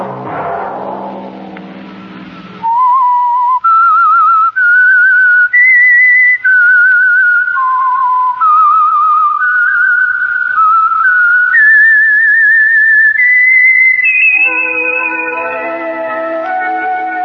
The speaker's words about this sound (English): Whistle be your signal for the Signal Oil program, The Whistler